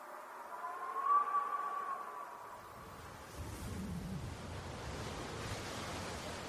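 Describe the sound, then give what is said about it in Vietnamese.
Howling storm wind and pouring rain outside a maternity home; a thin whistling gust early on gives way to a steady, even wash of noise, with no voices. “Tiếng gió bên ngoài rít mỗi lúc một mạnh, tiếng mưa xối xả làm cho mọi cảnh vật xung quanh cũng rung lắc lên một cách dữ dội.”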